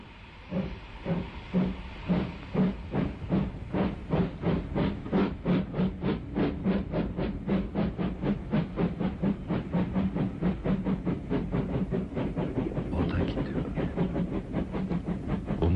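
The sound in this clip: A steam locomotive pulling out of a station: many loud, rhythmic chuffs of steam with a hissing wash between them. The beats come closer together as the train gathers speed over about sixteen seconds.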